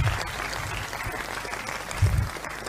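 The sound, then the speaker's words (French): An audience applauds for Jesus at a church teaching service, with steady, dense clapping that stays even and continuous throughout. “Est-ce qu'on peut acclamer pour Jésus?”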